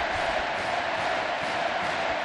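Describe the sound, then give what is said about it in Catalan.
A football club crowd applauds and cheers. The mass of clapping and crowd noise stays dense and steady at an even level throughout. “Aquesta reacció espontània. Aplaudeix el president Bartomeu, també.”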